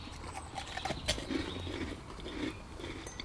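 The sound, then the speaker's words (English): People chewing onion rings while they eat, with continual crunching and moist chewing. Many small irregular crunches overlap in a steady, fairly loud stream with no talk. “Excuse us eating. Oh, onion rings.”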